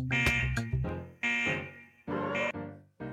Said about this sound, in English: that's an alarm.